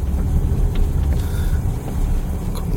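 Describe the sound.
A car drives slowly into a narrow street: a continuous low engine and road rumble at steady loudness, with no voices.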